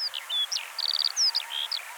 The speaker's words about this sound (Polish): skowronki, które też tu dookoła pięknie śpiewają.